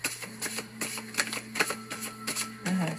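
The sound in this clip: Cards are handled during a card reading, a rapid run of soft, crisp riffles and taps with an uneven rhythm over a faint, steady low hum.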